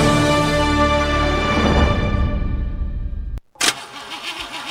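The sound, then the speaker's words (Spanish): A car engine cranks without catching for roughly three seconds, a steady churning drone that then cuts out abruptly, followed by a short, rougher burst of engine sound. “¿No te arranca el auto?”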